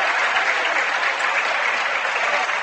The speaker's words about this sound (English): And so is the entire crowd here at Anna. All the Rockets fans, all the Raiders fans on their feet.